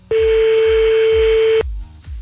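A single steady telephone tone sounds as another call is placed, holding one pitch for about one and a half seconds before cutting off abruptly, over a low, regular thumping beat.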